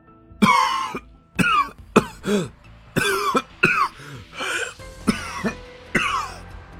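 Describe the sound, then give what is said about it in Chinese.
An old temple master coughs in a long run of harsh, throaty bursts separated by brief gaps. The coughs are fairly loud and stand alone, with no speech over them. “苍红观主咳嗽起来，反正也看得够久了，严福瑞赶紧帮他拍背”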